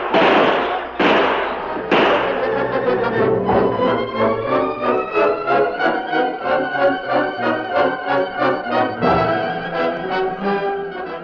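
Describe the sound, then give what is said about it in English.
Heavy slams and thuds as a door is shut and locked in a radio drama, with three sharp hits in the first two seconds, followed by a long sustained tonal passage with a steady pulsing rhythm. “Shut the door. Shut the door behind me and lock it.”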